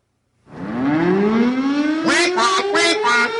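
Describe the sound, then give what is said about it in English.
A tornado siren wails loud and unbroken, its tone climbing steadily in pitch as it winds up, with no talking over it. “Tornado alarm. That is a tornado siren.”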